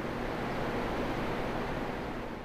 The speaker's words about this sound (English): The most notable sound here is the near silence, just the rush of the Clark Fork River